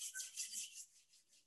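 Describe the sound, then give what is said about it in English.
Palms rubbing together briskly in a guided meditation, a quick series of soft, dry rasping strokes that start fairly loud and fade over the final half, with no voices over them. “Gently rub your hands.”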